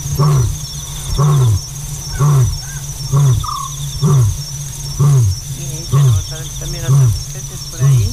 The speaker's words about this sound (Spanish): Y luego ahí dice, pues sí, que es un autillo. Ese true es el autillo africano,